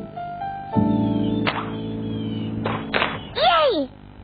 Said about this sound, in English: the next day, Daddy helped Caillou practice shooting the puck.